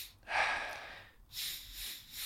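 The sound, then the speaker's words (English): Two quick, big breaths taken during a breathing exercise, each a loud airy rush that fills the lungs almost full, one right after the other with no talking. “Filling up the lungs with that third breath almost full. So it's not a short breath or a small breath. It's quite a big breath, but quickly.”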